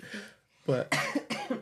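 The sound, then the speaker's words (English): Coughing from someone with a coughing bug that has lingered in the household for weeks: a faint cough, then a few harsh, closely spaced coughs that are loud and raspy, with no talking. “it's a whole coughing bug that's been going on in our house for a few weeks.”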